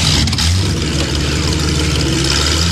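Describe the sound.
A car engine roars loudly and steadily as the car drives off quickly, a continuous revving drone with no pauses or voices.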